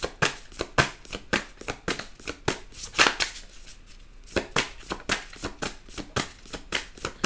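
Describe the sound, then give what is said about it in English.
Tarot cards being shuffled, a rapid run of many crisp snapping flicks and riffles with a brief lull midway, moderately loud with no talk. “All right, I need another card for Cancer. What's going on with this secret?”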